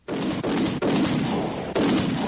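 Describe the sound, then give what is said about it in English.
Gunshots are fired at a man: four heavy, booming blasts in quick succession. Each is loud and dense, and each rings on into the next. “I felt the slugs tear into my side, leg, and shoulder and was knocked to the ground by the force of the bullets.”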